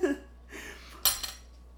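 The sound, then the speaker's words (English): A knife set down after cutting a cake: a sharp clatter of metal against a hard surface, then a smaller tap just after, both brief and fairly quiet. “I could put this knife down.”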